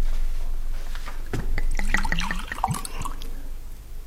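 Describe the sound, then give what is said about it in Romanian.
Wine poured from a carafe into a glass: a short gurgling pour of about a second and a half, with glugging bubbles, set between quieter moments with no talk. “dacă ești bun, să-mi torn un pic de vin din carafa de pe masă”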